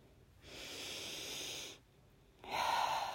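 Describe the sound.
A deep breath taken during a guided meditation: a long, soft, airy rush of breath lasting over a second, a brief pause, then a second, louder breathy pass that carries to the end. No talking.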